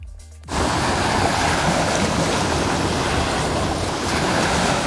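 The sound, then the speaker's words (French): Sea waves roll in as a loud, steady roar of surf that starts abruptly and continues without a break, with a windy hiss over it and no voices. “Là, c'est la mer.”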